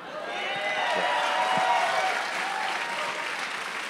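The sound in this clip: Applause from a comedy club audience, with dense, steady clapping that swells slightly around the middle and carries on for about four seconds.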